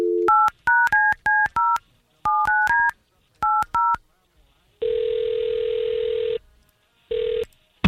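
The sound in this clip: Telephone keypad tones dial a number for a call in quick bursts grouped in clusters. A long, steady ringing tone follows, then a second ring begins.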